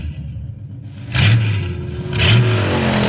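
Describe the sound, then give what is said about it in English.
Car engine accelerating onto a test track, building in two distinct surges of revving that each step the loudness up and hold it, with a steady low rumble running throughout. “Proceed slowly to the track entrance. As soon as 34 passes you, you have 20 seconds to enter and accelerate to your approved test speed.”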